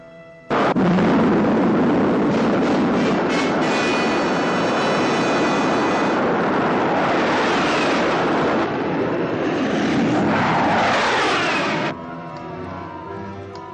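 A multistage rocket launches after a countdown with a sudden, loud, sustained roar of engine thunder that rumbles for about eleven seconds, then cuts off abruptly to a quieter tonal background.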